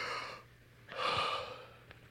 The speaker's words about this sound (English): I want you to take three deep breaths with me. You ready? Another one.